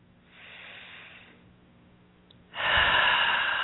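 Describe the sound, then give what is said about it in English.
A deep breath is drawn during a calm guided relaxation: a soft, airy rush of breath, then after a pause a louder, sustained breathy whoosh that holds steady to the end. “Nice deep breath.”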